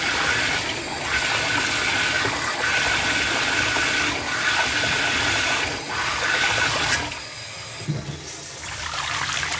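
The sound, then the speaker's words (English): Running water rinsing off skin, a steady full-bodied splash and trickle that flows continuously with a brief dip near the end, no voices. “Time to rinse off now.”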